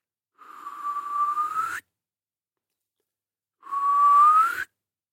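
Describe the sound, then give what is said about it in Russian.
A man whistles in a dark, dense spruce forest: two long, clear whistles, each held on a steady tone that slides upward at its end, separated by a stretch of silence. “Снова и снова свистел Моран, вглядываясь в темноту перед собой”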